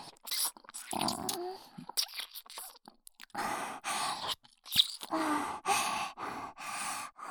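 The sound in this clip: Wet mouth sounds of someone nibbling and eating at an ear: many irregular soft crunches and smacks mixed with breathy sighs, fairly quiet and close.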